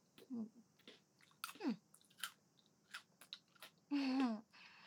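Chewing of food being fed by hand, heard as several short wet, crunchy bursts with soft murmured hums between them, fairly faint throughout.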